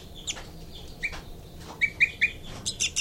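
Short, high bird chirps, a mix of flight calls and a young bird's begging calls, come in a series of quick notes, several clustered close together, with quiet gaps between them.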